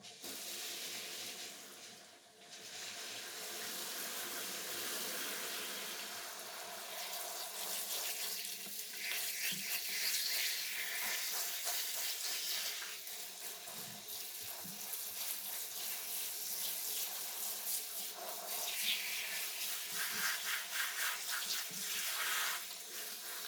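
Tap water runs steadily while hair is rinsed after a hair treatment, a continuous soft hiss and splash that briefly dips near the start and then flows on with gentle changes in texture.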